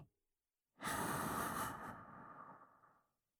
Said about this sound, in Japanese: そしたら、今度は吸って、